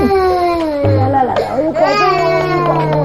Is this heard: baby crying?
yes